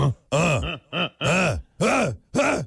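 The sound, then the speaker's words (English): A person imitates a caveman with grunting noises: several short, guttural groans in a low voice, each rising and falling in pitch and separated by brief pauses in an uneven rhythm. “You're just going to make grunting noises like,”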